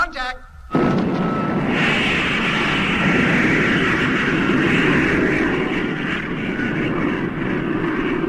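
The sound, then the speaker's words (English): A spacecraft descent motor fires with a sudden loud, continuous roar after a short opening moment, then holds steady and dense for several seconds with no break. “Motor about to be fired for descent. Are you ready? Ready. Firing in 5 seconds from now.”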